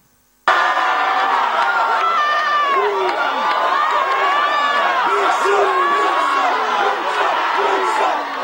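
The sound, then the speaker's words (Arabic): Students cheer and shout in a crowd around a policeman dancing in front of them during a student protest in Mâcon. The loud, continuous din of many voices rises and dips without pause. “منختم بفيديو مهضوم هالمرة من مدينة ماكون لما الشرطي قرر يغير أجواء الاحتجاجات الطلابية على طريقته. بدل ما يكتفي بمراقبة المتظاهرين بلش يرقص قدامهم وسط تشجيع وضحك الطلاب اللي تجمعوا حواليه وصاروا يصوروه.”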